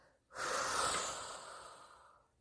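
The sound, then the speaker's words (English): One deep breath through the nose during a tense-and-release relaxation exercise. It comes as a long, soft, breathy rush that starts abruptly and slowly fades, with no talk. “And I'm just going to take a nice deep inhale through my nose. And tense and tense and tense it as much as I can. And then when I exhale, I'm going to release.”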